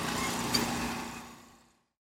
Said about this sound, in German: Und ich hatte gerade die Frage gestellt, warum der Schotterpflug, der jetzt hier vorbeikommt, das Schotter nicht hier reinpflügt.